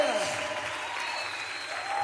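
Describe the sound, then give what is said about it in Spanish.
Applause from an audience at a church worship service: dense, steady clapping at moderate volume throughout, with a voice heard over it. “dale fuerte ese aplauso al que es digno de honra, de gloria, de adoración, de alabanza.”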